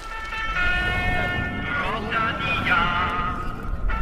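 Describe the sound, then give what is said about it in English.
Sponsor jingle for a watch manufacturer, played from a car passing along a cycling race route in Flanders shortly before the riders arrive. A bright, tonal melody rings out over constant low road noise. “If you've ever been to one of the races in Flanders, you'll have recognised that sound. It's the jingle for a watch manufacturer which sponsors many of the races, and shortly before the riders are due to arrive, a car comes past playing it.”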